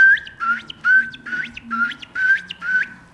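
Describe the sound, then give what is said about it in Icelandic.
A common ringed plover calls while running near its nests on a gravel riverbank flat. It gives a steady series of short, clear, whistled notes, each with a quick upward flick, separated by brief gaps. “þá svona kom þetta sandlóan, hún var að hlaupa þarna rétt við í eyrinni með hreiðrin sín og þá heyrði maður hérna.”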